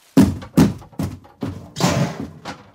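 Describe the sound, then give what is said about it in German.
Heavy thumps and bangs as a door is battered in during a police raid: a rapid, fairly regular series of loud, dull impacts, the later one longer and harsher. “Rumsen. Krachen. Splittern. Die Spezialeinheit dringt in die Wohnung ein.”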